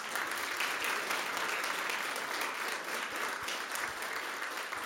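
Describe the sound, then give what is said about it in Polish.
Applause from an audience at an awards evening, a dense, steady wash of clapping that holds at an even, loud level for about five seconds without a break. “Poprosimy o gorące, głośne brawa.”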